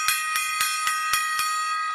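A bright bell ringing like a stock exchange opening bell, struck in a rapid, even series of several clangs at a steady rhythm with a sustained metallic ring between strikes.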